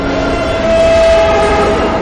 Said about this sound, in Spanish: Otro tren se acerca